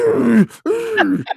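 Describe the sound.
A man's voice imitates a boxer wheezing and breathing hard after a flurry of punches: a few strained, groaning breaths with a rough, moaning tone, loud and unaccompanied.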